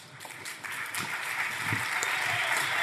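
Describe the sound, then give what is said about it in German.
An audience applauds at a live German show to welcome a guest, a steady wash of clapping that swells slightly and holds. “Also für alle, die uns jetzt nur hören, der Alex wird hier, da gibt es schon 10 Applaus.”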